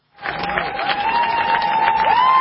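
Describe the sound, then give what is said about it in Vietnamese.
Cheering and applause from hundreds of supporters gathered outside a Moscow court as a verdict is announced, bursting in abruptly after a brief silence and holding loud and steady to the end. “Clameur de joie à l'énoncé du verdict et soulagement pour les centaines de personnes venues soutenir devant le tribunal.”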